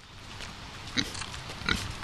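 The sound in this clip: Pigs grunt on a small pig farm in Longmont: two short, faint oinks about a second apart over a steady low background hiss.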